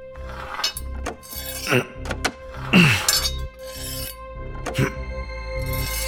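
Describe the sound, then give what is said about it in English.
Metallic clinks, thunks and scraping come from a knife being forced against a flimsy safe to lever it open. The sharp hits are irregular, with a louder scraping, creaking burst near the middle. “The safe doesn't look particularly robust, so it might be possible to lever it open with the knife, if I can get it at the right angle.”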